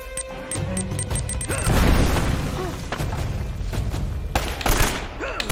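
A grenade blows up in a video game. A quick series of sharp cracks leads into a dense, booming crash that swells near the middle, and more crashing impacts follow later.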